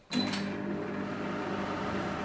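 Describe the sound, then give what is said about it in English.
A microwave oven hums as wet wheat grains rotate inside it in a southern Italian kitchen, with a sharp onset followed by a steady, even drone. “Wet wheat grains rotate inside a microwave.”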